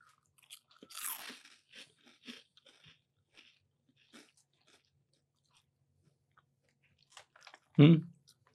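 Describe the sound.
Crunching and chewing on a lightly seasoned Thai snack chip with a hint of shrimp: scattered crisp bites and chews at an irregular pace, mostly faint, with one louder burst.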